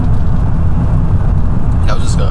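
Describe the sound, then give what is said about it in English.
Steady low road rumble of a car heard from inside while it is being driven, a loud continuous drone that holds evenly throughout. “I'll just pause for a little bit. It's because I am driving.”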